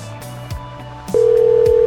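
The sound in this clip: Telephone dialing a store's number: a few short clicks and tone bursts, then a steady continuous line tone that holds to the end.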